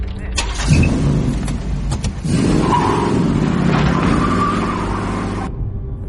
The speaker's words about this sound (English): The detective drives off.